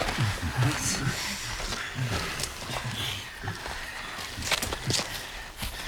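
Footsteps of a group walking together: many soft, overlapping steps in an uneven shuffling rhythm, with low rustling throughout and no clear pauses.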